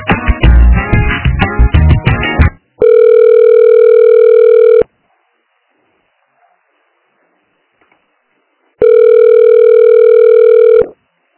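Telephone ringing tones on the line while a call is being transferred: after a brief, dense jumble of sound come two long, steady electronic tones, each about two seconds, separated by several seconds of silence.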